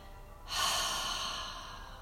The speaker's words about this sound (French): Inspire, gonfle le ventre, puis la poitrine. Expire, laisse sortir l'air par la bouche.